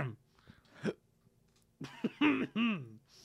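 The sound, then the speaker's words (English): A person coughs and clears their throat, struggling with something caught in it. A few faint early rasps lead into a run of loud, harsh, voiced coughs toward the end. “Sorry, I got something caught in my throat.”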